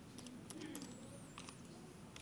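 Faint typing on a computer keyboard while writing web page code in Visual Studio 2012: a handful of soft, scattered key clicks at an irregular rhythm over a steady low background noise.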